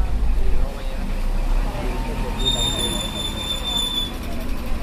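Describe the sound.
The E21 line bus pulls into a stop in Mollet with a steady low engine rumble and a thin, high brake squeal partway through, with talk over it.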